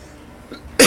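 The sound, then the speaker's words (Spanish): A single sharp, loud cough from a person who has been coughing for a few days. It bursts out suddenly at the very end after near quiet. “Usted está bien tosiendo, ¿ah? No, va a tener que tomar más líquido. Llevo dos o tres días bien tosido.”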